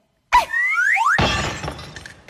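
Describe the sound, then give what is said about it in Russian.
A toy flying saucer whistles in rising, gliding tones, then crashes on landing with a sudden loud shattering clatter that fades away. “Ха, разбилась. Пожалуй, над этим летательным аппаратом еще надо потрудиться. Посадка не отработана.”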